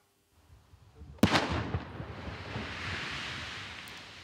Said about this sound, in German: 3, 2, 1 und dann ein gewaltiger Knall. Im Kreis Osnabrück ist mitten auf einem Acker eine Bombe gesprengt worden.